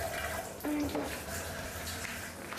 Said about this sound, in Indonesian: cuci tangan. Pakai sabun. Pakai sabun.